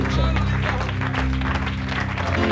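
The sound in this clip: A church audience applauds to welcome a guest preacher at an evening service: dense, continuous clapping with voices mixed in, steady and loud throughout.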